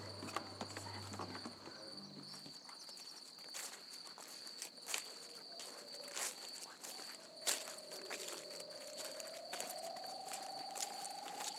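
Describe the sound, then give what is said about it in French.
Several people walk across the ground with soft, irregular footsteps while crickets chirp steadily throughout; the scene is quiet and faint. “Alors, marchez un peu pour voir. Vous êtes des clandestins et vous devez passer la frontière.”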